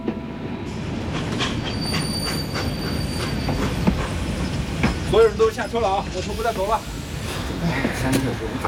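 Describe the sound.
A train runs on rails with a continuous rumble and rattle, high wheel squeals sounding over it, and a voice heard briefly in the middle.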